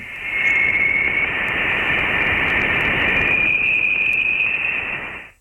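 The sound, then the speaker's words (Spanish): Voyager spacecraft plasma-wave recording of interstellar plasma disturbed by a solar storm: a loud, steady static hiss with a bright whistling tone running through it, which steps slightly higher partway through before the sound cuts off. “los instrumentos de la Voyager sí pueden captarlo y no me resisto a poneros el único sonido interestelar que conocemos, que lo tenemos grabado.”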